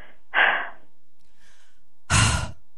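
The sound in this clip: Two breathy puffs of exhaled air during a relaxation breathing exercise, short and sigh-like, with a fainter breath sound between them and quiet gaps around each puff.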